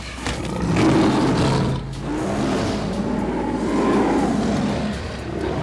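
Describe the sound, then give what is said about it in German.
A film sound effect of a fight with a lion: fierce, guttural roaring and growling in heavy bursts. A brief drop in the snarling comes near the start, then a long rough roar continues almost to the end. “Es ist ein Kampf mit einem Löwen.”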